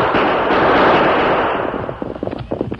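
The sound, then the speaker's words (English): Gunfire crackles in a dramatized Western fight against riders on a trail. A rumbling wash of noise gives way to a rapid, uneven burst of many sharp shots that continues to the end. “Use your guns, Tonto. We'll drive them off.”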